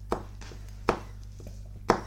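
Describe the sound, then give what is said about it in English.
A knife chops a chili on a cutting board while a cucumber and cabbage salad is being made. A few sharp, crisp strikes land at uneven intervals, with fainter taps between them. “I'm going to chop up this chili.”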